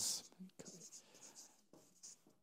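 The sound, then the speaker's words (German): Handwriting as someone notes down spoken answers: faint, scratchy pen or chalk strokes in short, uneven bursts, separated by brief pauses. “Ich schreibe es als Verb.”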